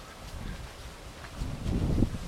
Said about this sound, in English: Quite a breezy day, but overcast and quite autumnal in feel.